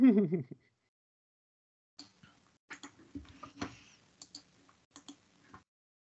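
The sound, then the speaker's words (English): Typing and clicking on a mechanical keyboard: a brief voice opens, then after a pause come sharp, irregular key clacks, some bunched in quick clusters, others spaced apart, fairly quiet overall. “Click, click, click. Type, type, type. What I get for having a mechanical yep.”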